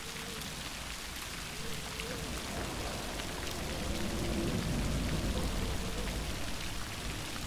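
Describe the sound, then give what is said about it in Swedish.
Steady rain falls in a continuous, fairly soft wash of drops. It stays even and unbroken throughout, with no voices. “Vinden tjuter. Regnet piskar henne i ansiktet.”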